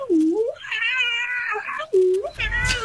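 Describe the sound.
A female cat meows a few times in a row: drawn-out, wavering, tonal cries, the middle one long and sustained, the last rougher and noisier, all loud and close together with no talking over them.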